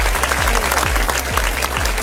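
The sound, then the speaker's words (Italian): A crowd applauds two DJs at a dance party, the continuous clapping laid over a pulsing, bass-heavy beat that thumps at a regular rhythm underneath. “Facciamo un applauso a DJ De Niro e anche a DJ Tiga, entrambi fantastici.”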